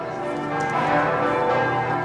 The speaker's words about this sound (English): What you hear are the church bells pealing at the Theatina Kirche Catholic Church here in Wittelsbacher Platz, just a couple of blocks away from the Bayerischer Hof Hotel.